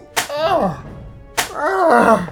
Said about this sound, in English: He kept hitting me across the tops of my legs with a riding crop.